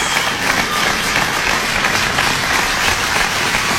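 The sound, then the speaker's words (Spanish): Applause: dense, steady clapping fills the whole stretch at an even level, with no talking over it. “estos aplausos son para ustedes, mis cariños, como siempre, y respetos a todos”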